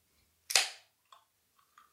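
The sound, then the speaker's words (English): A can of C4 energy drink cracks open with one sharp pop and a short fizzing hiss, followed by a few faint, small sipping sounds. “It's not the builder, that's me, drinking my C4”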